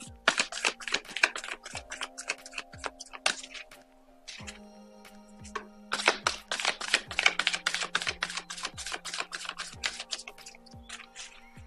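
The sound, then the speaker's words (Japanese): Tarot or oracle cards being shuffled for a card reading: repeated bursts of rapid papery flicks and snaps, with short pauses between, fairly soft throughout. “それでは今日のね、カードリーディングやっていきましょう。カードをシャッフルいたします。少々お待ちください。”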